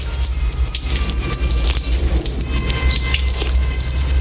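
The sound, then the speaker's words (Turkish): Water runs from the tap of a public marble drinking fountain with a deep basin, a steady, loud splashing gush that continues throughout. “Buradan güzel güzel su içiyor insanlar. Ben de içeyim efendim Terkos olsa.”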